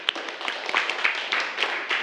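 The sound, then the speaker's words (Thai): Students clap lightly for a classmate in a classroom, a faint, sparse patter of uneven claps that continues throughout. “ขอบคุณมากครับปรบมือให้เพื่อนหน่อย”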